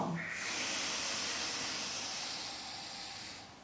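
A long, soft breath in and out before a single chanted Om closes a yoga practice, heard as a sustained airy hiss that fades slightly toward the end.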